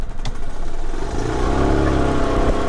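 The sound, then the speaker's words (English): A small yellow golf cart drives between rows of cherry trees in an orchard, giving off a steady, loud, engine-like whir and rumbling road noise that stays level throughout. “We hopped on a little yellow golf cart. We're just driving through rows and rows of huge cherry trees”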